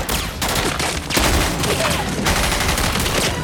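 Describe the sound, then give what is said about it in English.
Loud gunfire rattles in dense, rapid bursts of overlapping shots as commandos are shot down in a firefight, continuous for the whole span. “Darius and Steele take out the last of the commandos.”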